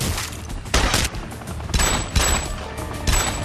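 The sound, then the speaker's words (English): Gunfire in a firefight involving an armed SWAT team, several loud bursts of shots cracking out over a constant noisy rumble, spread across the whole stretch. “now we've got a bit of a firefight”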